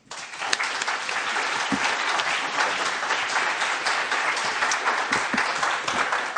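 Audience applause welcoming author Daniel Bergner to an evening reading, dense, steady clapping that starts abruptly and keeps an even, full level for over six seconds.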